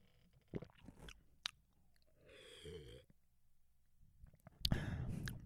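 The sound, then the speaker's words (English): Close, quiet mouth sounds of drinking chocolate milk from a bottle: a few wet clicks and smacks, then a gulping swallow and a louder wet burst near the end, with no talk. “A little ASMR chocolate milk for you. This is some really good chocolate milk.”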